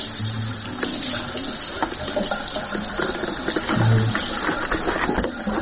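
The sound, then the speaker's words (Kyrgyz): Water splashing as an infant is bathed: continuous pattering and sloshing at moderate loudness, with a few brief low hums, and no talk. “эч кыйналбай ымыркайды жуунтуп жайыгын алмаштырып жатты”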